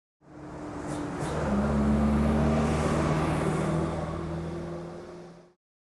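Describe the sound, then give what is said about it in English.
A car engine drone swells in, holds as a steady low hum with a few sustained tones, then fades away over about five seconds, with no other sound alongside it. “Car.”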